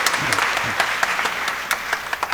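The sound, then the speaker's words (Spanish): Applause from an audience in church: a moderate crowd clapping, with distinct individual claps standing out from a steady patter. “Gracias, gracias por su aplauso.”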